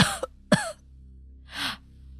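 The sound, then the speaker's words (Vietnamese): Harsh coughing from a man doubling over: a quick cluster of sharp coughs, then a longer, breathier hack after a short pause, over a low steady hum. “khuỵu người xuống ho sặc sụa”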